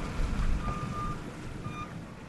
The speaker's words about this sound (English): On Oceanside Drive, trucks and front-end loaders were clearing tons of sand that the storm had carried over and through the seawall.